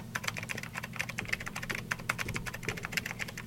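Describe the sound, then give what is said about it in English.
Rapid typing on a computer keyboard: many quick, crisp key clicks in an uneven stream over a low, steady hum, with no voices. “Let's do it again. When at first you don't succeed, type again.”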